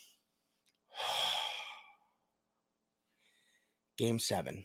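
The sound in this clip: A single deep breath, one long, full breath lasting about a second that rises and then fades. After a pause, a voice starts briefly at the end.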